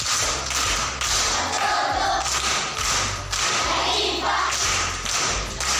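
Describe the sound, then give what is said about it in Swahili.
An audience at a primary school claps for a child who solved a riddle. The claps fall in a steady, rhythmic beat, with loud thumping strokes repeating at regular intervals over a crowd murmur. “Muhindi, amepata amekosa? Amepata. Makofi kwa mjomba.”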